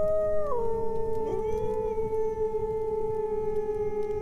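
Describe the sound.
Many wolves howl at night in a valley below, long overlapping sustained cries. One voice drops in pitch early on, and the chorus holds on steadily to the end.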